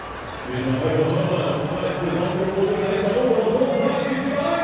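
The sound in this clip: A basketball bounces on the court during a layup in a Nigeria game, with a man's voice talking steadily over it.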